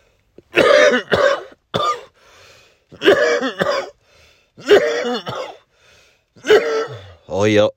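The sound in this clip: A person coughs in several heavy, harsh bouts spaced across the stretch, loud and rasping, with throat-clearing mixed in.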